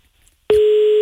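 Telephone busy signal on a call that goes unanswered: after half a second of silence, a single steady mid-pitched tone starts abruptly and holds unbroken, fairly loud, to the end.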